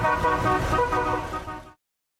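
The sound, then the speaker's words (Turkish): Classic car horns blare in a sustained, brassy tone over a low engine rumble, loud throughout before cutting off abruptly. “Klasiklerin korna ve motor sesleri şehre uzun süre silinmeyecek çok özel ve renkli bir hatıra”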